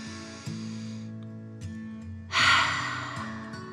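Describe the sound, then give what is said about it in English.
Deep breaths in and out during a guided breathing exercise play over a soft, sustained musical drone. One full, breathy exhale stands out near the end, with fainter breath sounds before it. “Okay. Deep breath in and out. Again, deep breath in and out.”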